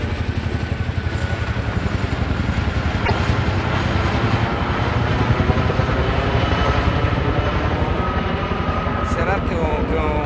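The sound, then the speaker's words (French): Large army helicopter flying overhead, giving a steady, loud, low thumping rotor drone with engine whine that holds throughout. “L'elicottero dell'esercito. E voilà, l'elicottero non è grande. È un grosso elicottero.”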